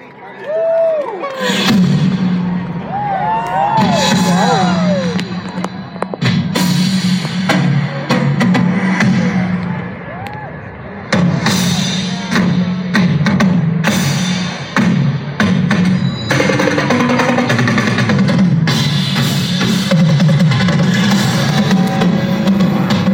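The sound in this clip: A drum group plays live at the 2017 presidential inauguration welcome concert, loud booming hits and rolls in dense bursts, while a crowd cheers.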